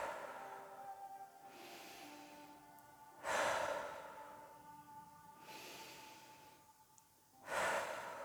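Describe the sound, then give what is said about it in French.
Slow, deep breathing in and out during a guided breathing exercise: a few long, airy breaths, each swelling and fading. They are soft overall and sit over faint sustained tones. “Continue l'inspiration et l'expiration.”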